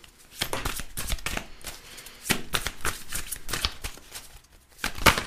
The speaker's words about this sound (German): Da werden wir jetzt mal mischen und gucken, was wir hier an Karten für den Februar haben.